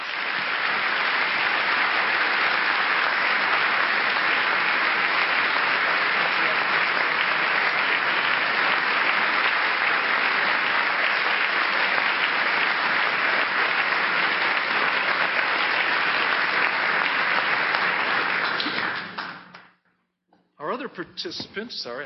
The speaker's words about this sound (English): Please join me in giving a warm Trinity welcome to Jim Wallis.